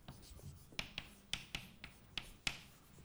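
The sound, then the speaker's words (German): Pen strokes scratch out a quantum mechanics equation by hand, with many short, crisp scrapes and taps in an uneven rhythm, faint and alone. “Ich schreibe es auf.”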